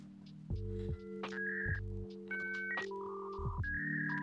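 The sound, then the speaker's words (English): Dial-up modem connecting a computer to the internet: a buzzing low drone with bursts of static, then a string of shifting high beeping tones that step between pitches, loud and unaccompanied by talk. “That was the sound of us getting online when it first started. So, like, imagine being on a computer, and every time you tried to get online, that was the sound.”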